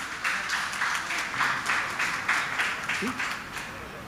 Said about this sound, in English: So let's all put our hands together as we welcome the pupils of the Kearney Hindu School.